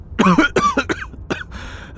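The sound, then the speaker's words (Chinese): A taxi driver coughs several times, performed by a voice imitating staged, theatrical coughs: a few short, voiced bursts in a quick irregular run, followed by a softer hiss. “司机师傅咳嗽了几声，偷偷的从后视镜看了两人一眼，又欲盖弥彰的咳嗽几声”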